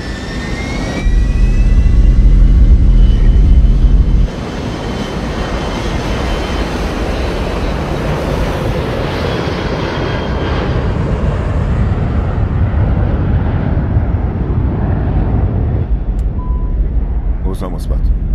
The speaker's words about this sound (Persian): کاکتوس 1549 آماده پروازه. تیکاف خودکار. تیکاف خودکار.